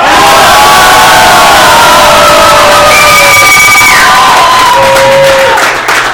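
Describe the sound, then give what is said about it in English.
About fifty people cheer and shout loudly in agreement, a dense, sustained roar of voices with whoops and sharp yells rising above it throughout. “And this is the sound of 50 people who agree with me.”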